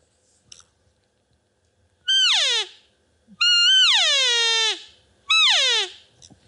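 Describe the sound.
Three nasal, bleating notes are blown on an Easy Estrus call, each sliding downward in pitch. The middle note is the longest, with short silences between them.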